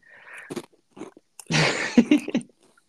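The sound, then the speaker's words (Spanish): Someone chews Pringles potato crisps, producing loud, irregular crunching bursts. A few short crunches come first, then a denser, sustained crunch followed by several quick bites. “Se escucha mucho cuando como. Sí, más o menos. Verga, perdón. estoy comiendo unas Pringles, güey.”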